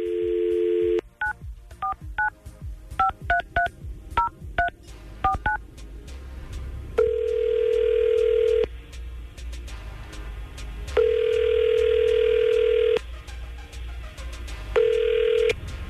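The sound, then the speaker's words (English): A telephone call is placed: a brief steady dial tone, then a quick run of many touch-tone dialing beeps, followed by three long, steady ringback tones separated by pauses. “So we're going to try and make this happen and get him some answers right now by trying to call Lexi, who he has not heard from.”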